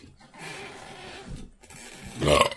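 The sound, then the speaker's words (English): A burp, drawn out and croaky, with a rough guttural texture that swells louder near the end. “Nice burp.”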